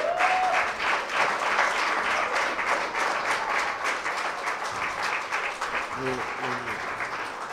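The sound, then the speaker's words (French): Congregation applauding in church, a dense, steady wash of clapping that holds at an even level throughout, with a voice briefly rising over it at the start and again near the end. “est-ce qu'on peut acclamer le Seigneur pour...”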